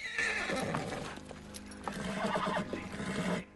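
A pony neighs while its hooves clip-clop as it is ridden and turned, a quiet, continuous stretch of whinnying and hoofbeats.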